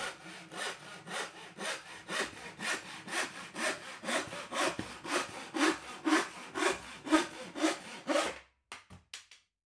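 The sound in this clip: A hand saw cuts through wood in a steady run of many rhythmic back-and-forth rasping strokes that stay loud and even, then stop, leaving a few faint knocks; no voices.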